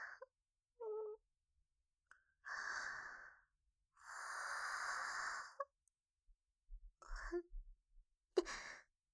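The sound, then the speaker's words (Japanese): A yawn: a few short breathy sounds give way to two long, drawn-out airy exhalations, followed by a few brief soft breaths. “私ったら、ついあくびを。”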